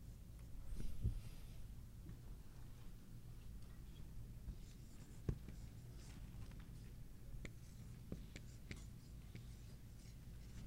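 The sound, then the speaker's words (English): Faint handwriting: soft, continuous pen scratching with a few light taps, quiet throughout. “I'm going to write OT for Old Testament because I'm lazy.”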